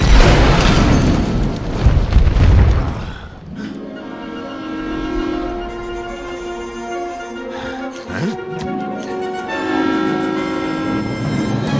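A bomb explosion in an animated film: a loud, broad rumbling blast that roars for about three seconds, then gives way to softer sustained tonal sounds.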